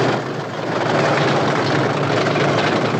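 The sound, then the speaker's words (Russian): German aircraft flying over a river in a wartime scene make a loud, continuous roaring engine drone. The broad, steady noise stays unbroken for the whole clip with no voices. “Немецкие самолеты летят над рекой.”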